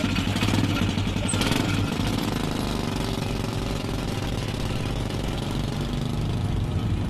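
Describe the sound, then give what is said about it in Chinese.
A three-wheeled motorcycle engine runs at a steady pace on a family's early-morning trip out to cotton fields, making a loud, continuous rattling chug with no pauses and no voices. “一家人一大早就坐着三轮摩托下地”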